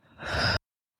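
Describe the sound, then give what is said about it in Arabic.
A single deep breath taken during a guided breathing exercise. The airy rush swells steadily in loudness for about half a second, then cuts off abruptly. “كمان مرتين شهيق عميق وزفير طويل”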